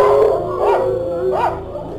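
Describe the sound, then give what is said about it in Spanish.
Dogs howling in two rising-and-falling wails, each about half a second long, over a steady low tone that sits underneath. “Los perros estuvieron aullando durante esos 7 días.”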